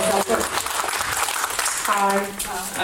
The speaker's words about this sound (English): So can we have a round of applause for Layla?